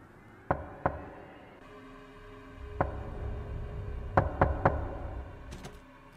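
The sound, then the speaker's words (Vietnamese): Knocking on a bedroom door: two separate sharp knocks, then a single knock, then a quick run of three, all faint over a low steady hum. “bỗng nhiên cánh cửa buồng vang lên tiếng gõ cứ ba nhịp một, cộc cộc cộc.”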